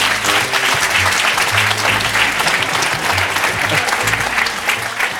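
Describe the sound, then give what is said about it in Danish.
Audience applause at a Danish comedy show greeting the country's tax minister: dense, continuous clapping holds loud and even throughout, with faint low tones pulsing beneath it and no talk. “giv en stor hånd til Benny Engelbrecht”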